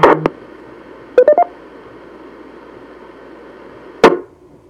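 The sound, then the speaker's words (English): DTMF telephone keypad tones are sent to reset an amateur radio repeater. Several short, sharp tone bursts come in irregular groups, with a quick cluster in the middle and a single tone near the end, separated by quiet hiss. “Let me reset the repeater.”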